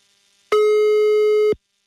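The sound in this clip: A telephone tone for an unanswered call sounds as a single loud, steady electronic beep lasting about one second, with silence before and after.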